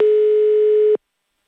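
A telephone tone sounds as an outgoing call is placed to a contest participant: one flat, steady beep lasting about a second that stops cleanly into silence.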